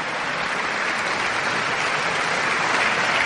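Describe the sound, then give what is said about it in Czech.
A concert audience in Prague's Bethlehem Chapel applauds a conductor returning to the stage before a radio symphony orchestra. Dense, steady clapping from many hands stays even in loudness throughout. “Kolegium rozhlasových symfoniků nyní stojí na pódiu a dirigent Alfonso Scarano se opět vrací na pódium a patří mu potlesk.”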